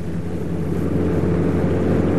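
Car engine droning as the standard car accelerates in third gear at about 70 km/h, a loud, constant low rumble that holds steady without a clear break.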